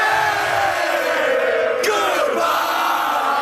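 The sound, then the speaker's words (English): Hockey fans of the Montreal team cheer wildly outside the arena in Buffalo after an overtime win: a dense, loud, continuous crowd roar with yells, and one shout sweeping downward in pitch midway. “Outside the Buffalo Arena, Habs fans cheered madly.”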